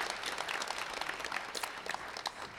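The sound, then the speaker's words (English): A church audience applauds visiting guests at a Christmas service, with steady, sustained clapping from many hands that holds evenly throughout. “Come on, church. Let's give it up for them again one more time.”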